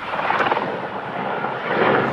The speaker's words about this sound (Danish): Helikoptere bevæger sig gennem kulsorte skyer og kaster vand ned på det store flammehav, der breder sig over de knastørre græsmarker.